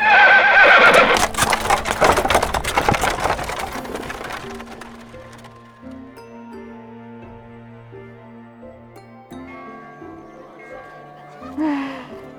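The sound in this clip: A horse pulling a carriage whinnies loudly at the start, with a burst of clopping hooves alongside; the sound then fades to a quieter, steadier background.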